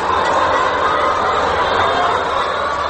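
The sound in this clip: Laying hens cluck inside a small farm built from metal containers that houses about a thousand caged birds, giving a dense, unbroken chorus of overlapping clucks and chatter at an even, fairly loud level.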